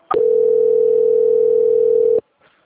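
A steady, loud single-pitched telephone dial tone plays while a call is transferred to a quality-control department. It holds unbroken for about two seconds, then stops abruptly.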